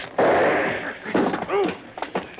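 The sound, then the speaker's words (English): A gunshot knocks a gun out of someone's hand. It is a sudden, loud burst with a rough tail lasting about a second, followed by short vocal exclamations. “Shot the gun out of my hand, will you?”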